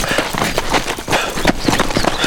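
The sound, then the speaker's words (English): A horse trots, its hooves clip-clopping in a steady, quick rhythm of many loud beats over a rough, constant bed of noise. “Colorado kicked his horse to a trot, and Ranson followed.”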